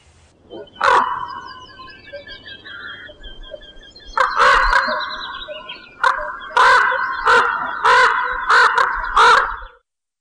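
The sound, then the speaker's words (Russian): Harsh, loud crow caws: one call, a pause, then a long series of repeated caws in quick succession that stops abruptly. “Вороны.”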